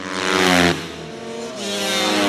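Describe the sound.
A motocross bike races into an off-road dirt section with jumps. The loud engine roar rises, cuts off abruptly as if in a jump or gear change, then revs back up and climbs again.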